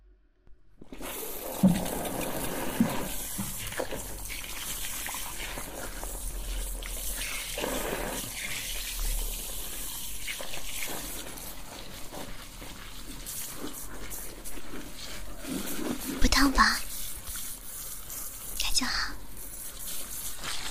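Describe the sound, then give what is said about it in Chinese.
Running water rinsing hair during a hair wash, a soft, continuous hiss of flowing water throughout with a few brief louder splashes and faint whispering beneath. “眼睛闭上了，开始冲水了。”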